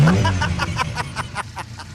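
A Chevy engine revving before a drag race, heard as a rough, rapid series of rhythmic pulses over a low hum that stays fairly loud throughout.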